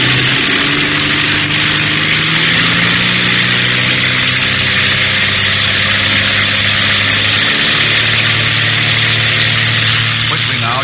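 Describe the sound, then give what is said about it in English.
Propeller aircraft engines opening up for a formation takeoff with three planes in a tight vic: a loud, continuous droning roar with a steady low harmonic hum that holds throughout. “Feathering on the propeller and open up the throttle, keeping in a tight vic with Parker and Jeff, taking off in formation.”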